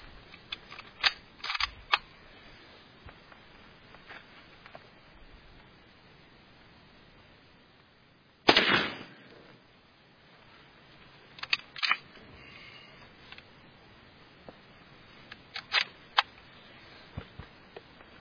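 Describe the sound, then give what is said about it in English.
Sharp gunshots come from small, powerful Winchester shells fired at a small target. Several faint, crisp reports are scattered over a quiet background, with the loudest one about halfway through. “That's a pretty small target over there I'm shooting.”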